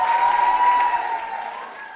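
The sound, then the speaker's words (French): A standing ovation from a convention audience cheering American guests at a fan event, a loud, dense burst of applause that holds strong, then softens slightly over the second half. “Grosse ovation, le public s'est levé, tout le monde est debout pour acclamer les guests de ce week-end.”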